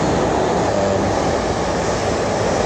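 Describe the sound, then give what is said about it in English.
A train passes through a railway station with a loud, steady rumble and broad hiss that holds constant for the whole stretch, with no voices heard. “Sorry, that train just went past.”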